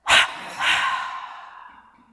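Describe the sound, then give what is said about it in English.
A breath released after being held and tensed during a guided relaxation exercise: one short sharp puff, then a long breathy exhale that gradually fades to quiet. “So breathe in. Gather any tightness, hold it, feel the tension, and then.”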